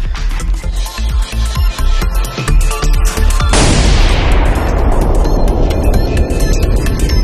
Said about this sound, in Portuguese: Eu quero que meu oi hoje seja aquele efeito sonoro de uma bomba.